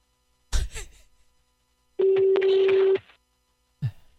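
Tone from a telephone line after a call is cut off: a single steady, low, pure tone lasting about a second over a bed of noise, with brief louder clatter-like bursts before it and after it.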